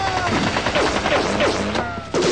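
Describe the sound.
Gunfire rattles through an animated action fight in rapid, overlapping bursts, with shouting voices mixed into the dense noise.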